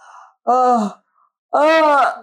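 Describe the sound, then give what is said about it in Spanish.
A person demonstrates yawning with two drawn-out, voiced yawning sounds separated by a short silence, each loud and breathy with a groaning tone. “¿cómo podemos bostezar ahorita desde la parte física? Aquí va. Pon la lengua en los incisivos, abajo, abre...”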